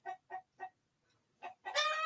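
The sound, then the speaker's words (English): An upset rooster and chickens cluck quietly with four short, evenly spaced clucks, a pause, then a longer, louder squawking burst. “you could hear the chickens upset back here. See, here's this one. Let me go check on this chicken. What's wrong, darling? Oh, that's the rooster.”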